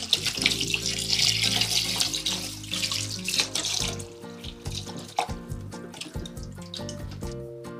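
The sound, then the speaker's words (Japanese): Tap water running while vegetables such as okra, cucumber and myoga are rinsed in a sink: a loud, steady gush of water at first, then lighter, broken splashes and drips as the washing continues. “まず野菜を軽く洗います。夏は水仕事も気持ちいいですよね。”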